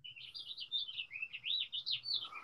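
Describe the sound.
Birds sing in a continuous stream of high, warbling chirps and quick sliding notes, fairly faint, with a steady low hum underneath.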